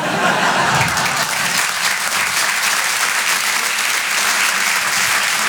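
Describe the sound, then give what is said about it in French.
Audience applause for a comedian after a stand-up set: dense, steady, loud clapping that holds at an even level throughout, with no voices heard over it. “On peut l'applaudir très très fort, Ilyes Léla sur les Rires et Chansons.”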